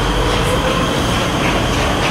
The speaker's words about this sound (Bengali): মেট্রোটা শব্দ করে বেরিয়ে গেল।